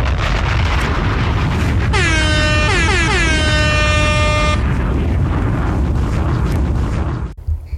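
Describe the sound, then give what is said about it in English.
Air horn sound effects blast several times in quick succession, loud and brassy, over a continuous roaring, explosion-like rumble that carries on after the horns stop and cuts off abruptly at the end. “I got to get one of Clues bombs and some horns in here for that.”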